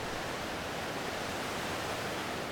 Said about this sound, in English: The sound you are hearing in the background is the sound of loud smashing falling water of the River Gondo in Muranga County in Kenya.